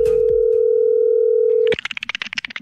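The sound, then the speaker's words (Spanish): A steady telephone dial tone hums at a constant pitch while a call is being placed, then cuts off abruptly into a rapid string of short, pulsing electronic chirps. “Estamos llamando a Rosa Melo a ver si lo quiere aceptar en su casa. Esto es la clavada telefónica.”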